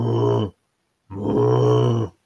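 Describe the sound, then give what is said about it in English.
A voice imitates a bear growl in two low, rough, sustained bursts, a short one followed after a brief silence by a longer one. “I will reply, but you see, I'm a bear, which probably comes out as a”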